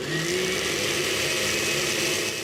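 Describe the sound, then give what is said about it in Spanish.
A blender grinds onion, garlic, marigold petals and chicken broth with a steady, loud whirring drone that holds constant from start to finish, with no pauses or change in pace. “Y vamos a agregarle nuestro caldo de pollo ya previamente preparado. Y lo molemos.”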